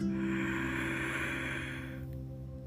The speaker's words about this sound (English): Now, let's all take a deep inhale together